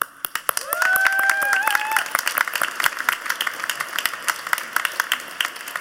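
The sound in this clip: An audience applauding to welcome a visiting reverend, his wife and a Baptist church: a burst of brisk clapping with a voice briefly over it, thinning to scattered single claps.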